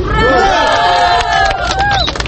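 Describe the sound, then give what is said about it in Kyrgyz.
A young crowd at an election rally shouts "ura" together in loud, sustained voices that overlap into a continuous roar. “Келгиле жаштар, таза шайлоо үчүн деп уран айталы.”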